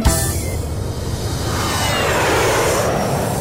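An airplane taking off, used as a sound effect in a children's dance song, roars steadily for several seconds as a loud broad rushing drone that swells a little toward the end.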